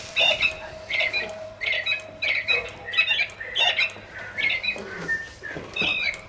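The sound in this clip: A bird chirps and squawks in many short, bright, high-pitched bursts that repeat at a fairly steady rhythm, with brief gaps between the calls.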